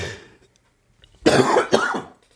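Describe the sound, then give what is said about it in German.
A person coughs twice in quick succession, two harsh, rough bursts that break a short stretch of near silence. “jetzt muss ich hier husten, das ist ja furchtbar. Ich hoffe, das ergibt sich gleich wieder.”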